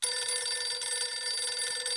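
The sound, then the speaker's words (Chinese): A telephone rings with a continuous, rapidly trilling bell tone. It holds loud and steady for the whole stretch, with no voices. “说完，刘厚同便给傅作义挂了个电话。”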